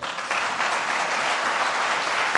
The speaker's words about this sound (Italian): Un caloroso applauso ad Alessandro Tommasi.